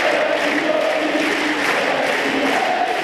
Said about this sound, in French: Le public qui scande le prénom de Kwame, c'est le nouveau tube de Roland-Garros.